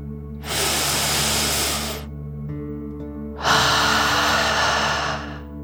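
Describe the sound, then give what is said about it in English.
Deep in-and-out "dragon breath" from a relaxation exercise: two long, breathy rushes of air, the second louder than the first, over a steady soft low hum. “And let's take another deep dragon breath in and out.”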